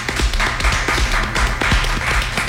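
Rhythmic hand slapping and tapping in a quick, steady pattern of sharp, loud smacks and lighter taps that repeat continuously, with no talking.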